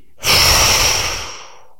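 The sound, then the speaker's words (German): One forceful exhale through the mouth after a held breath, a loud breathy rush of air that lasts about a second and then tapers off. “Halte, halte, halte und dann atmest du durch den Mund kanonenschussartig aus.”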